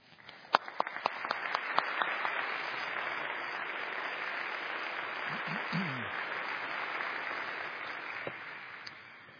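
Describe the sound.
Audience applause welcomes a guest preacher to the pulpit at a church gathering: a dense, steady wash of clapping that swells within the first two seconds, holds evenly for several seconds, then thins out at the end.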